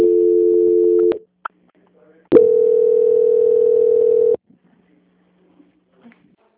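Steady telephone line tones sound during a call transfer at a bank: a flat, unbroken hum lasting about a second, a short gap with faint clicks, then a second identical tone lasting about two seconds before silence.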